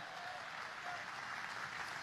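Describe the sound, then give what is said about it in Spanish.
Church audience clapping in praise during a sermon, a faint, steady patter of many hands, even in level with no clear pauses. “Si le va a alabar, dele palmas a Él.”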